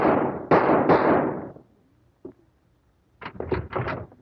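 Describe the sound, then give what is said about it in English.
Gunshot in a dramatic scene where a doctor is shot: a few loud, sharp bangs in quick succession, each with a short decaying tail, then a lull broken by one faint thump before other sounds resume. “Kit! I just shot Dr. Scott.”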